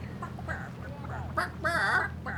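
Chickens cluck over a chickenized music track: warbling, nasal clucks and squawks rise over a steady low backing and get busier toward the end.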